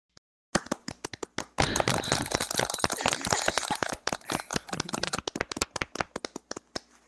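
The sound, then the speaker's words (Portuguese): Hands clapping at a military ceremony: a few scattered claps, then a burst of many people clapping together, thinning out into sparse individual claps by the end. “Palmas, pessoal.”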